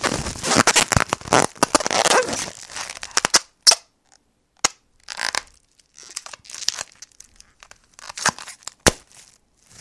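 A plastic packaging airbag from a delivery box is crinkled, torn and burst open. Dense crinkling and tearing come first, then several sharp, loud pops follow, separated by short silences.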